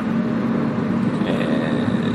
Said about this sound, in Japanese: 練習スタジオに向かう車内で撮っております。